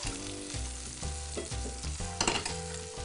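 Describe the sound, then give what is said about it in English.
Sea bass skin-side down in hot oil in a pan, frying with a steady, crackling sizzle and a few louder pops, alone without any voices. “Make sure that the skin has a nice contact with the oil so that we get a nice crispy skin.”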